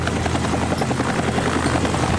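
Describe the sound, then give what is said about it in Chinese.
A helicopter's engine and rotor drone steadily and loudly throughout as the pilot flies it to open a beer bottle, with no voices. “他的眼睛不但要观察啤酒瓶盖和啤酒瓶起子之间的距离，而且他还要时刻观察他的飞机的姿态以及他面前所有的操控和仪表。”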